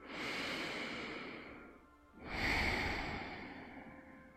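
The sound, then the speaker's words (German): Deep belly breathing during a relaxation exercise: two long, slow, soft breaths, one in and one out, each swelling and fading with a brief pause between. “Atme tief in den Bauch ein und aus.”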